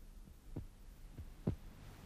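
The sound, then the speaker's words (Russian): A heart beating unusually hard, heard as faint, deep, muffled thuds repeating in a steady pulse, a few beats in all, with a low hum underneath. “Только я ощущал, как необычно сильно бьется сердце.”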